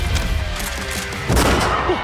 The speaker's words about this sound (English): Shots fired!